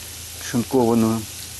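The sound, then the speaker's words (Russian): Shredded greens added to a hot frying pan for borscht, giving a low steady sizzle that runs under a brief spoken voice. “Вот, добавляем зелень.”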